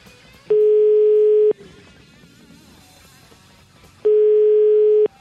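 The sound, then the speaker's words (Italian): Telephone line tone heard while a call is placed: two long, steady mid-pitched beeps, each about a second, separated by roughly three seconds of faint background hiss. “Io però chiamerei il nostro amico Mocavero di Animalisti”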